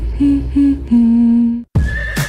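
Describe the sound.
A horse neighs loudly, with two short whinnying bursts leading into a long sustained call, followed by brief breathy snorting sounds.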